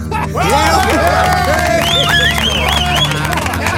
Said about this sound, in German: Beifall der Brigade.